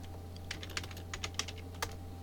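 Typing on a computer keyboard gives several crisp, irregularly spaced key clicks over a steady low hum, with no talking.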